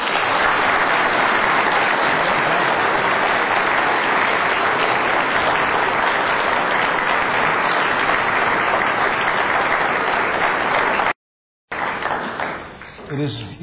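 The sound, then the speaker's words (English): Sustained, loud applause rings out for Pat McCaskey at a Sports Faith Hall of Fame award ceremony, a dense wash of clapping that cuts out briefly near the end before resuming and tapering off. “Let's hear a big hand for Mr. Pat McCaskey.”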